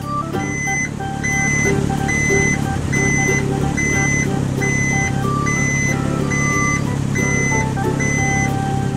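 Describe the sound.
Reversing beeps from a green garbage truck: a steady, evenly spaced series of high electronic beeps over a constant low engine rumble.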